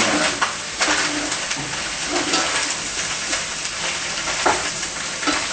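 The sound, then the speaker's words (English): Mushroom and eggplant stir-frying in a heavy iron pot, a constant crackling sizzle broken by a few louder scraping stirs. “add in the mushroom and the eggplant. Just stir them together.”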